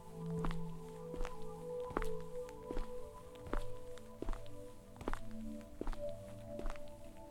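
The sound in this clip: Footsteps walk back toward the stairs near railway tracks, many steady, evenly paced steps with sharp taps over a constant low tonal hum.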